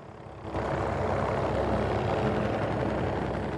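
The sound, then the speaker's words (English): A helicopter flies overhead above a beach hotel with an empty swimming pool. Its broad engine roar swells in after a quiet start, then holds loud and even to the end. “looks up as a helicopter flies overhead”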